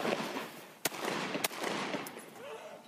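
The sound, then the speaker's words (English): Gunshots as police officers open fire in a street: two sharp, faint cracks about half a second apart, standing out briefly above steady background noise. “Both officers fire several shots.”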